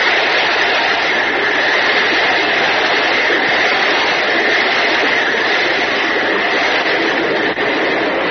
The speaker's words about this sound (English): That sound you hear is a tremendous water spout that has just been sighted by Jack Armstrong and Uncle Jim